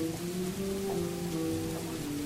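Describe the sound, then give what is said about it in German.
Rain falling outside a café, a soft, steady wash of rainfall with a low hum beneath it, quiet and unbroken throughout. “das Café mit Regen vor der Tür.”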